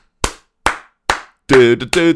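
Three sharp hand claps land on a steady, even beat, clapping along on the downbeat and upbeat, each loud and crisp with a quick decay. A voiced, tonal vocal sound follows after the claps.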